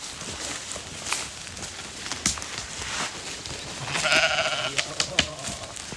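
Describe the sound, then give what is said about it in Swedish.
A sheep bleating on a mountain pasture where families keep sheep in summer: one clear, wavering bleat rises midway through a faint, hissy outdoor background, with a few soft clicks around it. “det är ju får här. Alltså det finns folk som är här på somrarna fortfarande. Vi har 2 familjer som har fårskötsel här, fårbönder.”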